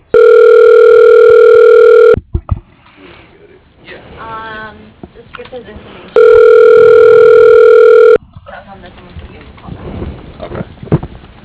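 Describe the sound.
A telephone call-connecting tone plays as an automated directory transfers the call: two long, loud, steady tones of about two seconds each, with softer voices and noise in the gap between them and after them.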